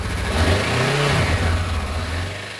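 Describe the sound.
Motorcycle engine revving, loud and continuous throughout, with the engine note dipping briefly near the middle before holding steady again.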